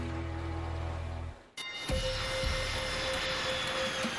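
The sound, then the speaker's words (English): Airplane noise at Yellowknife Airport as the last flight of the night lands: a steady engine drone that cuts out abruptly, followed by a hissier roar carrying a sustained mid-pitched whine. “The last flight of the night has just landed at the Yellowknife Airport.”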